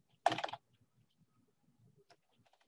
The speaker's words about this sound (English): Gotta write a quick message here.